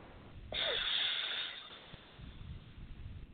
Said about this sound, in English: You're going to close the left nostril. And open up the right nostril. And we're going to breathe in for four.